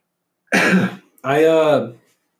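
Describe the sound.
A speaker clears their throat twice. The first burst is short and rough, and after a brief pause comes a longer, voiced, rasping hum, with quiet around both.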